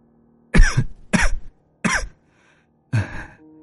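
A woman clutching her chest coughs four times in harsh, raspy bursts spaced out by short pauses. A faint breathy tail follows the last cough.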